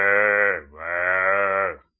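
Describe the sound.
A human voice imitates lambs bleating with two loud, wavering, nasal calls, the first shorter and the second drawn out, heard alone.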